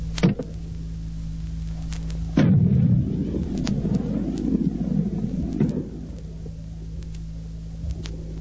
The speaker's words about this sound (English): The M40 A1 106mm recoilless rifle.